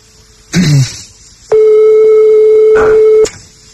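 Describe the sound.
A telephone ringback tone plays while a call is placed: one steady, sustained mid-pitched tone lasting nearly two seconds, preceded by a short separate burst of sound.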